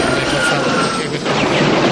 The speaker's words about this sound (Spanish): Este helicóptero puede, en teoría, localizar a un sospechoso, comprobar si es culpable y detenerlo. Todo eso en cuestión de segundos.